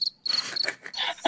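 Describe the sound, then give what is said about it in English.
Crickets chirp in many shrill, high-pitched bursts, with short irregular gaps between the trills and a louder burst at the very end. “Sorry. The crickets.”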